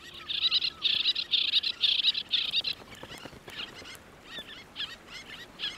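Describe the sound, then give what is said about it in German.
Little terns call at a breeding colony near Grömitz on Lübeck Bay: a rapid series of sharp, high chirps comes in quick bursts at first, then thins into fainter, scattered calls. “Bei Grömitz brüten die letzten Zwergseeschwalben der Lübecker Bucht. Zum Brutwechsel bringt das Männchen stets ein kleines Geschenk.”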